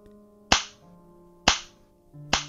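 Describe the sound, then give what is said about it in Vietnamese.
Three sharp, loud slaps crack out in a rented room, spaced about a second apart, each a hard smack that fades quickly against a quiet, steady background. “Từng cú tát vang lên trong căn phòng trọ, theo đó là tiếng chửi rủa chát chúa.”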